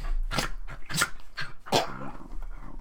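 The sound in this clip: A dog gives a few short, sharp barks, spaced unevenly with brief pauses between them over a few seconds and heard clearly alone.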